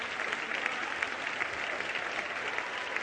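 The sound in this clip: Sustained audience applause, many hands clapping together at a gathering honoring Marines who served in Vietnam combat, a dense, steady roar of claps that holds evenly for about three seconds.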